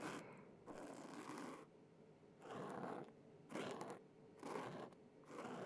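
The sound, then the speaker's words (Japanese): A cotton swab strokes just in front of the ear hole, making soft, faint rubbing and scratching sounds in several separate bursts with quiet pauses between them. “この穴の手前あたりが気持ちよさそうですね。じゃあ、ここを綿棒で撫でていきましょうか。”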